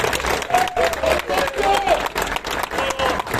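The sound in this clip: Cyclists applauding their hosts: loud, bustling clapping from a group that swells and dips in waves, with a voice briefly heard over it early on.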